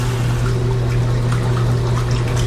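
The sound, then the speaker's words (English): A washing machine running with water sloshing in its drum, heard as a steady, unbroken churning wash over a constant low hum at an even level throughout. “Oh, you just caught me in the middle of doing the washing, lads.”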